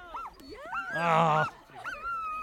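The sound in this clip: A dog whimpers in a few faint, high, wavering whines. A louder, drawn-out whining cry sits in the middle, and softer whimpers come before and after it.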